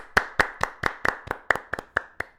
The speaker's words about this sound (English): can I just get a round of applause real quick